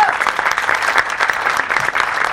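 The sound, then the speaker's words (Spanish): Audience applause for a speaker at a Universidad Nacional Autónoma de México event, a short burst of many hands clapping in a lively, slightly uneven patter at moderate loudness. “Un aplauso para él.”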